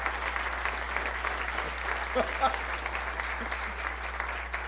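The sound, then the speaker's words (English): Audience applause after a debate speech on science and belief in God: a dense, steady wash of many hands clapping that holds an even loudness for the whole stretch. “you finished early, so that applause was okay.”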